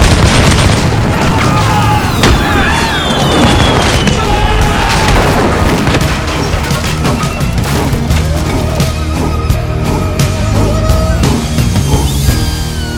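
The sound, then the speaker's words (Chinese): Dutch army cannons bombarding ships in a dramatized battle: loud, continuous booming blasts with crashing and splintering, one after another throughout. “荷兰军大炮连续狂轰。”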